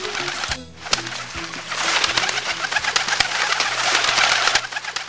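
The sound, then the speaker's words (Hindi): Pigeons cooing: low, soft repeated coos over a dense, hissy background. “सभु कबूतर आज़ाद थिया। हिननि कुए जी महिरबानी मञी ऐं ख़ुशि थी घर ॾांहुं उॾामी विया।”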